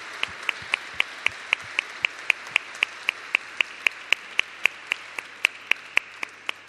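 Audience clapping at a citizens' meeting about a plebiscite for a new constitution, a steady unison rhythm of many sharp, evenly spaced claps, without voices.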